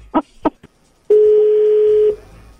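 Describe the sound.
A telephone keypad gives three short dialing beeps in quick succession, then a single steady tone holds for about a second before cutting off into quiet.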